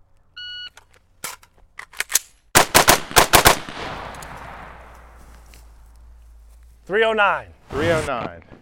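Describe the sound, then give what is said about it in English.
Rifle gunfire during a speed-reload shooting drill, three shots per target with a pocket magazine: a timer beep, a few sharp cracks, a brief pause, then a rapid string of loud shots, followed by people talking. “Now it's going to be speed reload and then 3 on each target with the rifle.”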